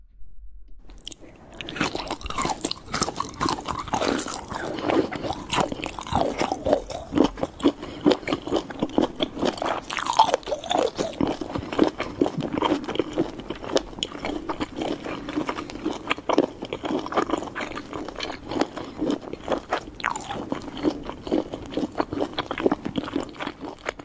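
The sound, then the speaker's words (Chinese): Chewing a bite of cold dressed salad: steady, crunchy mastication that goes on without pause, with many small crisp bites and wet crunches at a moderate level and no talk. “来，我们再吃一口最后一口凉拌。”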